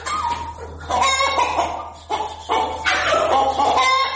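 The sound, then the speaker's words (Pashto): Domestic chickens from a household flock of about 200, struck by a viral disease, cluck in repeated loud bursts over a steady low hum. “منصور احمد بیا وایي چې په کور کې شاوخوا 200 کورني چرګان درلود چې د همدې ناروغۍ له امله یې نیمایي مړه شوي.”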